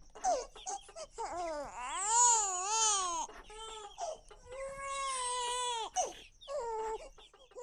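A two-month-old baby girl cries in a restaurant in Yaoundé, Cameroon, while her mother chops chicken for cooking. Loud, strained wails come in a few long bursts, with pitch bending up and down within each cry and brief gasping breaks between them.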